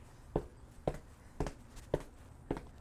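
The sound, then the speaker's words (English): Footsteps of someone walking past a shop: five soft, evenly spaced steps, faint and alone, each a short dull thud. “again with the footsteps, mine start to pick up, as do theirs.”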